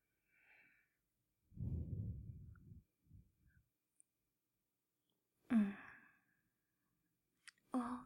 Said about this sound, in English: you'll feel so relaxed. You'll feel how all the tension goes away.